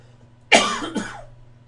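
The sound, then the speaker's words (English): A person's cough: one sudden, hoarse burst followed by a smaller second burst, short and fairly loud, with no talk around it. “Get that cough out of the way.”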